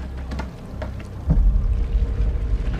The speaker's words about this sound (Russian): Лодка медленно плывет по кладбищу бледных замерзших людей.